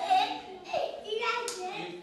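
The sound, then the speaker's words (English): Young children play in the infant and preschool wing of a children's shelter in rural Benton County, Arkansas, with small voices chattering and a few claps of hands. “A half a dozen children play in the infant and preschool wing inside the Northwest Arkansas Children's Shelter in rural Benton County.”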